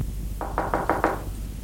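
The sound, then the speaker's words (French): Knocking on a door: five quick, evenly spaced knocks in a short burst, each one crisp and hollow, followed by quiet. “On frappe.”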